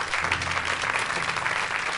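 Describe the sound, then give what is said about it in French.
A church audience applauds during a worship service, a dense and steady wash of clapping that stays loud for the whole two seconds without a break. “Est-ce qu'on peut encourager, est-ce qu'on peut les encourager en acclamant le Seigneur?”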